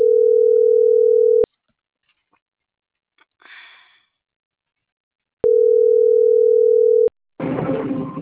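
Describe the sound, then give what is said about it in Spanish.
Ringback tone of an outgoing phone call: two long, steady, low-pitched beeps separated by a long pause, with a brief sniff in the gap and a burst of noise right after the second tone. “Le estoy llamando.”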